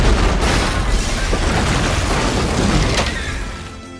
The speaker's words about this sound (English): To see a black cowboy detonate, the ultimate symbol of slavery.